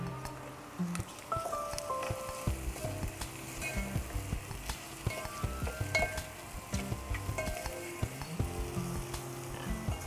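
Food sizzles and spits steadily in a hot pan while it is stirred and mixed, with soft scraping strokes running throughout at a constant, moderate level.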